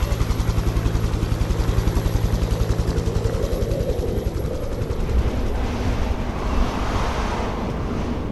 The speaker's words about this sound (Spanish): Y de repente un helicóptero viene a buscaros para llevaros de vuelta a Graceland.